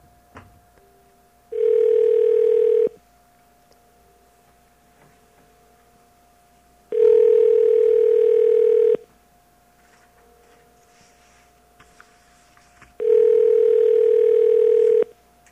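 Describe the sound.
Telephone call tones from a call that ends up going to voicemail: three long, steady buzzing tones with long silent gaps between them, over a faint constant line hum.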